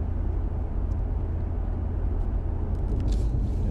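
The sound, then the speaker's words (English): A car drives with a steady, moderate low rumble of engine and road noise, continuous and unchanging for the whole stretch. No voices are heard. “Drive with me. We're gonna take us a little drive here back to the old house.”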